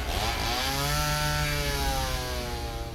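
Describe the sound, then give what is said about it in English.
A horror-film chainsaw runs steadily for a few seconds, a loud, continuous engine drone with a rough, raspy buzz and no talk over it. “Many of you called out specific sounds in horror movies, like the chainsaw in Texas Chainsaw Massacre.”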